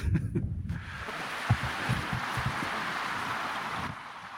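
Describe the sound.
Wind blowing across an open peat bog plateau, a steady blustery hiss with low, uneven buffeting thumps against the microphone that carries on throughout.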